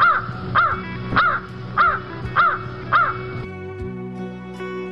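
A crow gives six harsh, loud caws at an even, steady rhythm, then falls silent and leaves only a faint low hum.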